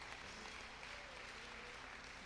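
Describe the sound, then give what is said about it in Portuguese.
Applause from an audience at a church service, a faint, steady wash of clapping that holds evenly throughout with no voices. “Uma salva de palmas para Deus.”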